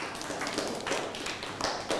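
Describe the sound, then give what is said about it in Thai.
Scattered handclaps from students in a Thai classroom, applauding a classmate who is sitting down, land as loose, uneven taps rather than a unified round. “นั่งลงครับปรบมือให้เพื่อน”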